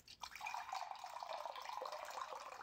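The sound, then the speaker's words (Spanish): Water poured into a cup, a faint, steady trickling splash that runs unbroken for about two and a half seconds with no voices over it. “Permíteme vertir la esencia de la vida en tu taza.”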